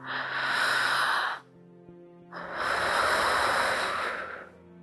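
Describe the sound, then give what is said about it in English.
A slow, deep cleansing breath: a long airy inhale, a brief pause, then an even longer breathy exhale, both loud and close. “take a deep cleansing breath”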